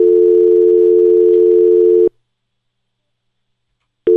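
A telephone line tone follows a dropped call: a loud, steady, unbroken tone holds for about two seconds, cuts off into two seconds of silence, then starts again.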